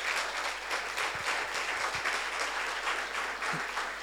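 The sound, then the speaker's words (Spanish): Applause from a church audience welcoming youths back from camp: sustained, moderately loud clapping that stays dense and even for the whole clip, over a low, constant hum. “Miren cuántos hay. Un aplauso para los que...”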